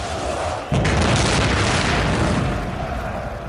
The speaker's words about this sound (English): going in with his signature shotgun volley of 60 SRM missiles